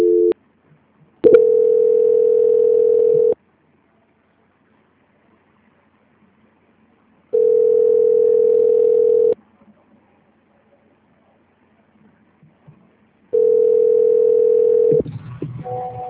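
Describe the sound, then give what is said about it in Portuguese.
Telephone line tone during a call transfer to a bank's quality-control line: steady mid-pitched tones, each about two seconds long, repeat at even intervals with silence between them. Low line noise follows the last tone. “Só um minutinho, desliga não. Transferência.”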